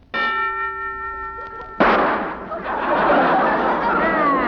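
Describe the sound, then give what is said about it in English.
A gun goes off in a single sharp bang that cuts off a sustained, ringing metallic tone and leaves a noisy, rushing decay that lingers for a few seconds. “That's the first time I ever heard a preview of a gun going off.”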